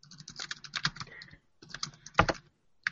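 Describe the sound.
Rapid typing on a computer keyboard while writing a social media post. The keys clatter in quick, irregular bursts separated by two short pauses, with no voices.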